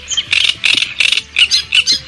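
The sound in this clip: Small birds chirp and sing in quick, bright bursts that repeat at a lively, uneven pace throughout, fairly loud with no talking.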